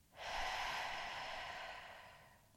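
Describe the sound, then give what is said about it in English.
A slow breath drawn through the nose and let out, a soft airy hiss that swells quickly, then fades gradually over about two seconds, faint and alone with no talking. “Again, breathe in through the nose and breathe out.”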